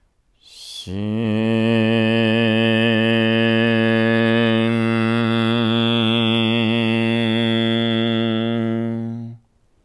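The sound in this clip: A single voice chants the "Xin" heart healing sound: a short hiss opens into a long, steady, resonant hum held for about eight seconds, ending on a nasal N before it cuts off.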